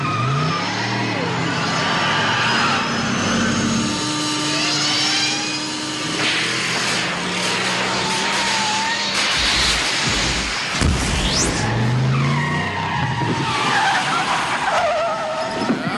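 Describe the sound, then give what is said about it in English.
A time machine sound effect races up to 88 miles an hour, loud and unbroken, with revving engine noise, screeching tire squeals and sweeping whooshes. “please don your appropriate Fighting for the Faith time travel attire and safety gear at this point as we roll up to 88 miles an hour. Here we go.”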